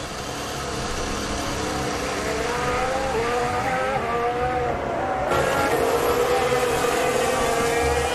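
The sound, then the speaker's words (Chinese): Racing car engine during a race as the car downshifts, misses its braking point and is put into reverse before retiring: a continuous loud mechanical roar with shifting tonal bands, changing character partway through, with no talk. “看看斯德罗尔到底怎么了，降档，这边呢错过刹车点，挂了倒档。”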